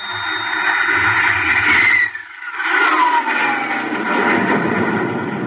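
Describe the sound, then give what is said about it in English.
A rocket blastoff roars as a loud rushing rumble with a whine that falls in pitch. It dips briefly, then surges again into a broad sustained roar. “Countdown for blastoff. X-5, minus 4, minus 3, minus 2, X-1, fire.”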